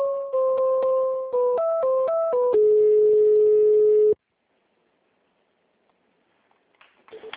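A telephone call being transferred: electronic tones step up and down in pitch and settle into one long steady tone. Silence follows, broken by faint clicks at the end.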